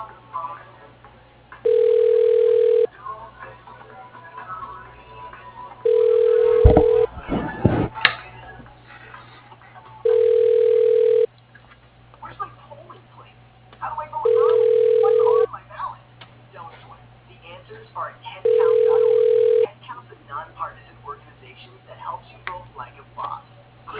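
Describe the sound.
A telephone ringback tone plays while an automated phone system transfers a call to an extension: five evenly spaced, steady mid-pitched tones sound over a faint line hum, with a brief click between the first rings.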